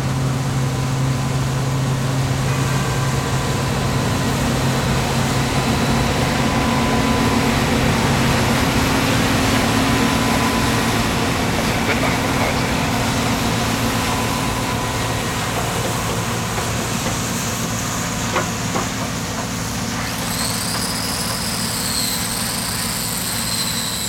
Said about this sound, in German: Ein polnischer Mähdrescher aus den 1980er Jahren, ein Bison